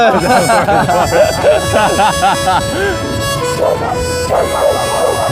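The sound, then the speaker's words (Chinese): A dog barks and yips while giving chase, many quick, high, excited barks with whimpering tones between them, loud and mixed with people's voices. “被狗撵。”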